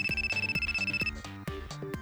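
A mobile phone message notification tone plays alone, a bright melodic jingle of steady rhythmic pulses that repeats through the whole clip.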